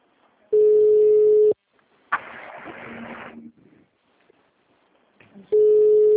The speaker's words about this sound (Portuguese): Não, tem alguém ligando pra alguém. Quem que tá ligando aí?